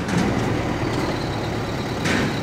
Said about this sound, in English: These are the poop trucks. In Senegal, they call them manque douches, toilet suckers. That's literally what they do. They suck toilets.